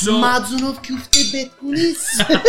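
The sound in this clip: Metal utensils clink and scrape against dishware as cooked manti dumplings are scooped out, with a few sharp clatters over a steady tonal background.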